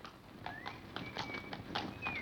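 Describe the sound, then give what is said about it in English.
Footsteps in a song intro, a brisk, even run of many soft taps like clip-clopping steps, with a thin whistling tone gliding above them. “starting with the UK stereo, which has the footsteps, and they slowly pan from one side to the other with the vocal”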